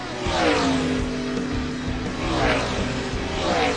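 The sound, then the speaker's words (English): Race car engine roaring and revving as an auto-racing show opens: a loud, throaty drone with repeated surges in pitch and volume. “time to crank it up. Start your engine!”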